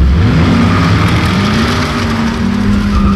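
A Ford Mustang accelerates hard in a loud, sustained engine roar. The engine tone climbs at first and then holds steady at full throttle, with no voices.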